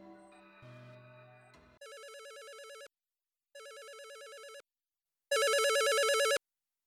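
An electronic telephone ringtone sounds after a brief tonal passage. It plays three warbling ring bursts separated by short silences, and the last burst is the loudest.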